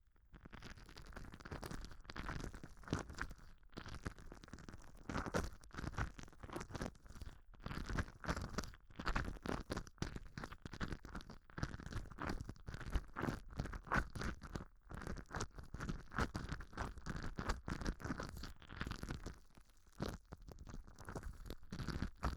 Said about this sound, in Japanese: それでは激しめのお耳マッサージさせていただきます。